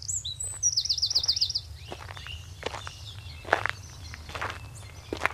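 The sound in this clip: Footsteps walk along a forest path at an even pace, each step a soft crunch. A bird trills brightly during the first moments and chirps sparsely later, over a low steady hum.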